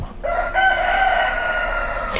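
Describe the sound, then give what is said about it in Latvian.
A rooster crows in one long, drawn-out, high call lasting about two seconds, loud and steady, with no voices over it. “Kāpēc tie gaļi dzied visu cauru dienu? Viņi vienkārši dzied, viņiem patīk dziedāt.”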